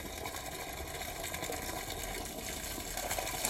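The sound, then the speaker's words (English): Clean water gushing out of a pipe running from one pond to another: a steady, continuous rushing flow with a faint rapid flutter, holding an even level throughout. “This is where the water comes out, from the pipe, clean water. From one pond to the other.”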